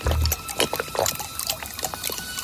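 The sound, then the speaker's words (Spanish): Water poured into an elderly man's held-open mouth and throat: continuous splashing, gurgling liquid with irregular bursts throughout, moderately loud and without talk. “vertió agua en su garganta”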